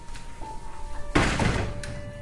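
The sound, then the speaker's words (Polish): A heavy door, hard to close, is pushed shut with one dull, solid thunk partway through, followed by a brief rumbling decay over a quiet background with a faint sustained tone. “Nie możemy ich zamknąć. Nie mogę ich zamknąć. No co jest z tymi drzwiami, moje dzieci?”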